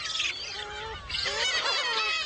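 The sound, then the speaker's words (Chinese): Black-faced spoonbill chicks squabble noisily over food on an island in early summer, giving harsh, honking, goose-like calls in overlapping bursts, two clusters of rasping cries with a brief lull between. “雏鸟们为争抢食物开始了吵闹”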